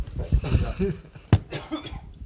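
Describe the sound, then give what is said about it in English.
Coughing and throat clearing after a hit from a vape mixing two flavors: a few harsh, rough bursts with the sharpest cough near the middle, followed by quieter throaty rasps. “Yeah, I've really cleared out my throat.”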